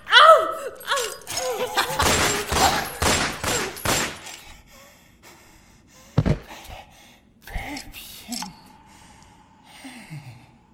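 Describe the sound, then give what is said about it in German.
Gunshots ring out during a tense standoff, a rapid burst of several loud, sharp cracks packed into about three seconds. A quieter stretch follows with a few further isolated sharp hits. “Ich hab doch gesagt, dass ich schießen werde.”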